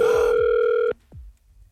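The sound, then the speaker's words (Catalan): A telephone ringback tone plays after a number is dialled: one steady, buzzing burst lasting just under a second, then cutting off and leaving only faint low background noise. “Sí, he marcat el telèfon de l'Eulàlia.”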